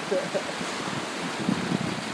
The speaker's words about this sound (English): These are the big waves. These are big waves.